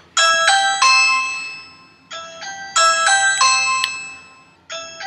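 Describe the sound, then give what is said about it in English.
A Ring smart doorbell chimes while an iPhone rings along with it, producing bright, bell-like multi-tone ding-dong phrases that repeat several times, each starting loud and decaying, with short gaps between them. “you can hear it ringing on the doorbell and also ringing on my iPhone”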